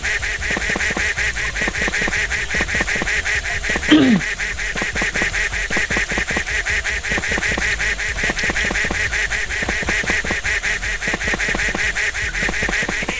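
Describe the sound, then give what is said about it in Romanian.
Duck quacks from a video game come as a rapid, steady stream of short honking calls throughout, with one louder swoop falling in pitch near the middle. “Haide, stai aici, rață.”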